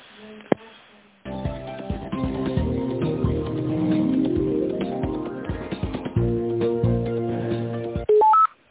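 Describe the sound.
Telephone tones during a call transfer on a narrow phone line: a short beep at the start, a longer stretch of line sound, then a quick rising series of tones at the end.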